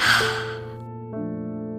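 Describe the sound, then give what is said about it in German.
A deep breath during a children's breathing relaxation exercise: a loud airy breath at the start fades within a second, while soft sustained tones continue underneath. “Noch einmal einatmen und wieder ausatmen.”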